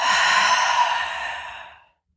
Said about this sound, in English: Big inhale. Hold it. Exhale.